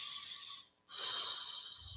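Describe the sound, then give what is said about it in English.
A deep breath, taken quietly on its own: two soft, airy, breathy phases separated by a brief silent pause. “Take a breath.”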